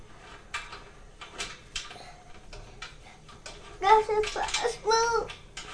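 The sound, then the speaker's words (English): Brief clicking ticks from driving the last screws into a shelf, a few sharp taps spaced irregularly, followed by a voice talking over the work. “Look, I'm just putting the last screws in now. The screws. I'm putting the last screws.”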